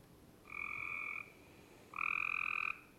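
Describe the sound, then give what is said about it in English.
Cope's gray tree frog gives its fast trill call twice: two high, buzzy, evenly pulsed bursts, each under a second long, separated by a brief pause over a faint background hiss. “So Cope's gray tree frog. It's a trill.”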